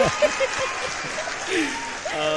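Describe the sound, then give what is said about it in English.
A recorded applause sound effect plays as a steady patter of clapping, with a person talking over it at the same time. “Where's the applause? Which one is it? It's one of these. Nope. Damn. Wait, nope. There we go.”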